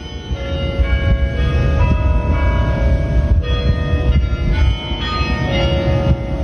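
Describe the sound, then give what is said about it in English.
Bells of the University of Michigan bell tower play the melody of a Jewish prayer of healing, tuned ringing notes sounding over a constant heavy low rumble that runs through the whole passage. “That is the sound of bells at the University of Michigan Bell Tower. Now, what would be newsworthy of that? It is playing the melody of a Jewish prayer called Misha Berach”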